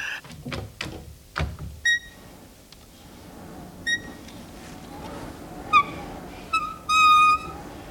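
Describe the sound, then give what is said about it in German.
Wooden window being opened carefully, giving off several high, squeaky creaks. A few dull knocks and clicks come first. The creaks follow in short bursts, and the longest, loudest one comes near the end. “Nun, das Fenster. Ganz behutsam. Dass es nicht wieder wie eine verräterische Elster knarrt.”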